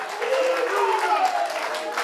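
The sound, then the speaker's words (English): Congregation clapping hands during a church service, a dense, steady stream of claps running the whole time with voices rising over it. “If you believe that, why don't you open your mouth and why don't you clap your hands, because it's only in the name of Jesus whereby we will be saved.”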